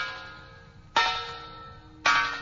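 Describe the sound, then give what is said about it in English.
A front doorbell rings twice, each a sharp bright bell strike followed by a ringing decay, about a second apart, alone without talk. “Now I've rung the front doorbell.”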